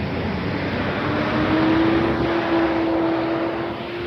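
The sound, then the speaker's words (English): A garbage truck pulling out of a cul-de-sac gives a loud, steady engine rumble with a sustained whine running through it, easing off slightly near the end. “Garbage truck coming out of the cul-de-sac behind me is what that noise is.”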